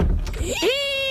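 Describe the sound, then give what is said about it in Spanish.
A creaking door swings with a rough scrape, then a rising groan that settles into a sustained, loud, high squeak. “Si tu puerta suena así,”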